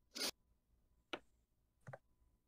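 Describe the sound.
Dice rolled for a tabletop role-playing game to recharge a staff of power give three short, sharp rattling bursts spaced apart, quiet and without talk.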